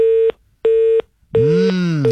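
A telephone line tone after a call-in phone call drops: two short, even, steady beeps, then louder, richer tones.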